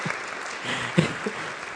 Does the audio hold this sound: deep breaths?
no